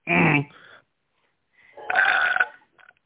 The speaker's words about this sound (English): I just burped like a motherfucker